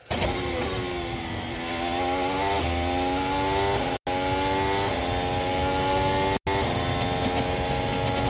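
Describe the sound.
A Formula 1 car engine accelerates down a long straight, a loud, high whining tone that climbs through several gear changes and is broken by two brief silent gaps. No voices.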